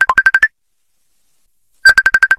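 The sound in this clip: Mobile phone ringing with an incoming call: two loud bursts of rapid, evenly spaced electronic ringtone notes, separated by more than a second of silence, the second burst longer than the first.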